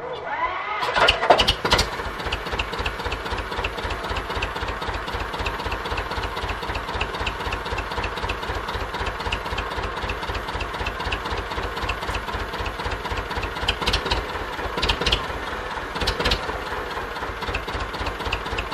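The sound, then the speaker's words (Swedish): A two-cylinder farm machine engine, used for spreading manure, starts with a loud catch and then settles into a steady idle with an even, rapid low thumping rhythm that holds throughout. “Ja, du Rune, det är ett speciellt ljud det här. Ja, det är ju två cylindrar och det, ja, det är ett härligt ljud.”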